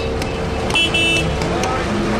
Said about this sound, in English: But then you can add the incessant banter of Cairo's infamous traffic.